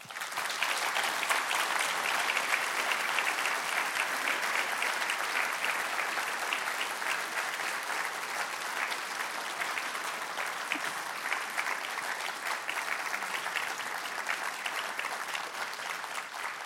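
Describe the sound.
An audience applauds to welcome a speaker to the front of the room, a dense and steady wash of many hands clapping that holds at an even level for the whole stretch.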